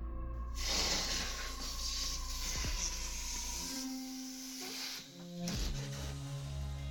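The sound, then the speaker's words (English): A balloon deflates in a long continuous hiss of escaping air, with wavering squeaky tones shifting in pitch partway through. “That's the sound of a balloon deflating.”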